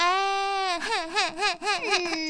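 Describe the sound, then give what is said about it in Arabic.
A child cries to get something. It is a loud, drawn-out wail that breaks midway into wavering, sobbing pulses, then settles back into a long held cry, with no other sounds. “نعم بكاء الأطفال. بكاء الأطفال عندما يريدون الحصول على شيء.”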